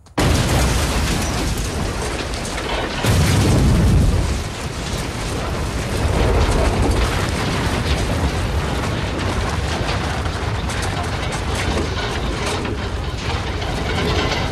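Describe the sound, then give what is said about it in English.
A trailer loaded with gas cylinders explodes in a loud, dense roar of noise, with a deep, heavy blast surging partway through before the roar carries on steadily to the end. “As the trailer explodes”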